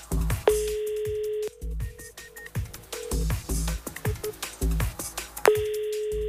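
A telephone ringback tone plays while calling a team in a long-distance relay run, waiting for someone to answer: two long, steady tones about four seconds apart over a busy, rhythmic background.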